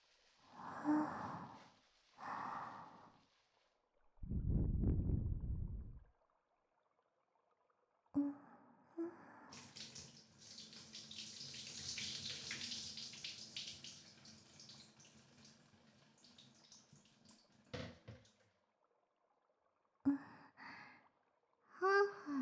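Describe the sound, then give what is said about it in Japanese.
Soft breathing, with a few slow, airy inhales and exhales, faint and alone. A longer hissing rush of breath fills the middle. “息しか聞こえぬが、どうした？”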